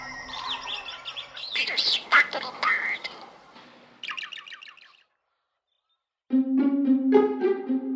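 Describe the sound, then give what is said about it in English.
Squawking chirps of monk parakeets, South American parakeets nesting in a twig nest in a tree in New York State. Harsh, rapid calls come in several bursts, broken by a short silent gap. “monk parakeet. Then he looked up and saw 25 feet above him a nest of twigs in a tree. South American parakeets were reproducing in New York State.”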